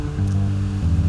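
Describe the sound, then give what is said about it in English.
Ocean surf with wind blowing, a brief, steady rushing wash over a low rumble. “That sound is the ocean, by the way. That's the ocean. And if it's a little windy, I'm sorry, but that's how the ocean works.”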